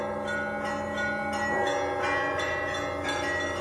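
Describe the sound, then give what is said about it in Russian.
Heavy, costly church bells of a monastery ring out in a continuous peal, with several strikes overlapping into long, bright, sustained tones. No voices are heard. “по всему саду, освещенному луной, разливался веселый, красивый звон дорогих тяжелых колоколов.”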